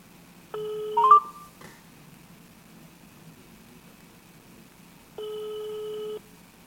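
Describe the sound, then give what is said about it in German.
A telephone call goes out: two steady, buzzy ringback tones of about a second each, separated by a long quiet gap, with a short burst of clicks and tone at the end of the first ring. “Und jetzt wird es, glaube ich, Zeit, dass wir den Florian anrufen.”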